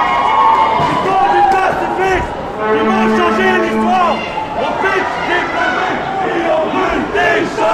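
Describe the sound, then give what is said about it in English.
A crowd of people runs toward a staircase and up the stairs, with many overlapping yells and cries sustained loudly throughout in an agitated, continuous din. “People are now running towards the stairs and going upstairs.”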